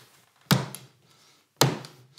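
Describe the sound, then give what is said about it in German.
A fist strikes a replica book twice, making two separate dull, heavy thumps about a second apart as its clasps spring open, with quiet between them. “Wenn du jetzt beispielsweise hier und hier einmal mit der Faust draufhaust, dann wirst du sehen, dass die Schließen aufspringen.”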